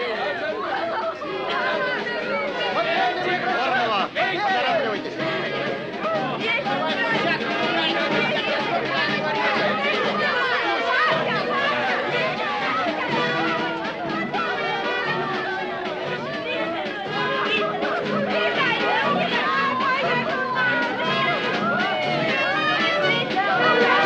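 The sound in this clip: Crowd chatter on a railway platform as a train departs: a dense, steady babble of many overlapping voices that stays loud and even from start to finish.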